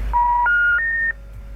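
Three telephone keypad dialing tones sound in quick succession, each a steady electronic beep pitched a little higher than the one before, with no talk over them.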